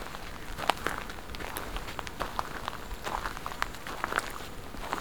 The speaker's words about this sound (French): Vous marchez.